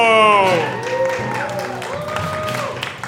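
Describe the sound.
Audience cheering and whooping with some clapping as a panelist is welcomed at a live news-of-the-week panel show. Raised voices ring out over the crowd noise across the short burst.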